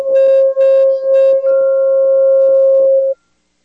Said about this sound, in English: little rings of the crystal bowl here.